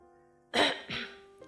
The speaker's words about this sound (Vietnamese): Tôi hắng giọng nghiêm túc nói với bố mẹ.